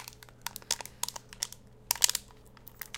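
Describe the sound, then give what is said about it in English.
Plastic wrapping crinkles as it is peeled off the twist-top lid of a Mega Energy drink can, giving a series of faint, sharp crackling bursts separated by short pauses. “First, we take off the top lid. Then we peel away the plastic wrapping as such.”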